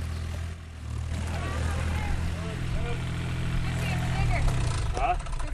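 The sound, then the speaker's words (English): Digger working at a farm building site beside a Victorian granite grain store, its diesel engine giving a steady low rumbling drone throughout, with faint higher chirping sounds above it. “as I turned off the lane, I could hear the digger at work with Johnny at the helm”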